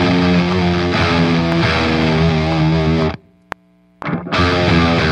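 Thick, buzzing electric guitar fuzz from a Swollen Pickle fuzz pedal stacked on an already heavily distorted tone, with loud sustained chords. The sound cuts off into near-silence broken by one sharp click, then the dense fuzzed guitar surges back in.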